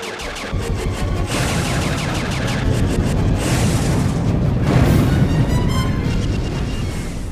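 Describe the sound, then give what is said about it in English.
Torpedoes and missiles fire from a warship's torpedo tubes and forward missile system, producing a sustained barrage of loud, rumbling booms and blasts that roll into one another without pause and swell toward the middle. “Synchronize the torpedo tubes with the forward missile system. Both weapons are ready to fire. Open fire. Empty the arsenal.”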